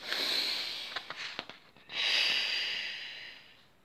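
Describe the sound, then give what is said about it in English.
Slow, deep breathing. One long, airy inhale is followed by a few soft clicks and then a long, steady exhale that fades out. It is fairly quiet, with no speech. “But then Bear takes a breath and another breath.”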